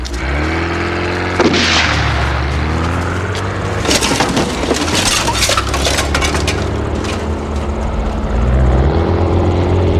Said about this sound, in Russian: Стреляй! Стреляй по колесам!